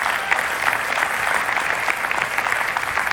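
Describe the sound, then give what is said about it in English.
A crowd applauds the band at a morning gathering: dense, steady clapping without a break and no voices on top. “let's give it up for the band this morning, man.”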